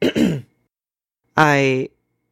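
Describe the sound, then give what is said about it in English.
A man clears his throat in two loud bursts: a short rough rasp, then after a pause a longer voiced, humming grunt, heard alone. “He clears his throat.”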